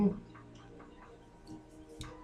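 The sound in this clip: Soft ticking from someone fidgeting, a few faint, sharp clicks at irregular intervals against a quiet background.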